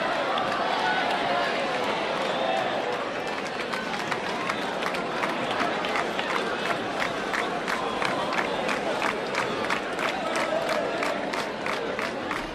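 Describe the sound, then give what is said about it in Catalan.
Dense crowd ambience at the Jocs des Pla during the Sant Joan festival in Ciutadella: a continuous roar of many voices and shouts, joined partway through by rapid, rhythmic clicking pulses that run to the end. “Anem a connectar de nou so ambient ara mateix a Ciutadella.”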